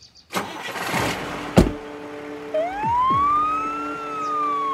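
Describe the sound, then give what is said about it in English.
Emergency vehicle sirens leaving a crash scene: a broad burst of noise and a sharp bang come first, then a loud siren wail sweeps upward and holds steady with engine sound underneath. “As the emergency vehicles left the scene, the sobbing stopped, and the silence that followed was deafening.”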